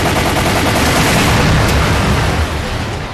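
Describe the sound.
Gunfire from a first-person shark-shooting light-gun video game comes as loud, dense, rapid bursts that run together into an almost continuous barrage, easing slightly toward the end.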